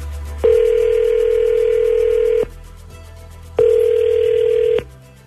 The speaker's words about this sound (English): Okay, I'm dialing him up now.